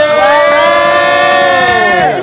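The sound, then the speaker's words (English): A studio audience cheers loudly, with long sustained whoops and shouts that hold steady pitch through the whole stretch and dip slightly at the end. “Ladies and gentlemen, give it up. We already got the applause going for Amanda Palomino.”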